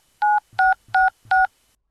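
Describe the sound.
Telephone keypad tones as a number is dialed: four evenly spaced, steady two-tone beeps, each lasting a fraction of a second, with faint low thumps from the key presses.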